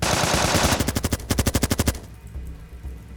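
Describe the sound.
Automatic gunfire from a special-forces ambush rattles out in a rapid burst of many sharp, evenly spaced shots, loud and steady, then breaks off into a low rumbling tail.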